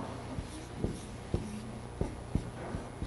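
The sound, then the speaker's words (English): Pen strokes scratch across paper while someone sketches a picture of four people, a mom, dad, brother and sister. Faint, short scratchy strokes come at an uneven pace, with no talk over them. “I'll draw a picture. How about, I'll just draw a picture of like four people, like a mom, a dad, and a brother, and a sister for that one.”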